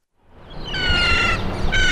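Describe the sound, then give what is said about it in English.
A flock of seagulls calls over garbage-strewn streets in Rome. Loud, overlapping harsh cries rise above a dense wash of background noise, with no talk. “Flocks of seagulls have replaced traffic roar as the soundtrack of Roman life.”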